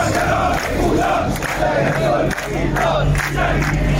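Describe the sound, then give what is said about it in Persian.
Striking workers of the national steel industrial group in Ahvaz chanting in protest: a large crowd shouts together loudly and continuously, with a rough, roaring, rhythmic swell of many voices. “این صدای اعتراض کارگران گروه ملی صنعتی فولاد اهواز است.”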